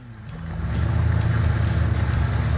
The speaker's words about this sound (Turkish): Çok güzel çalışıyor motor. Sessiz, hatasız ve hiçbir sızıntı yok.